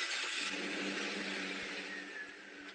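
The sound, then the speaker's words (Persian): Steady engine drone of trucks hauling loads of domestic goods toward the borders in Afghanistan, a continuous whirring rumble that holds level and eases slightly toward the end. “این صدای کامیون هایی است که با بار تولیدات داخلی به سوی مرزها می روند.”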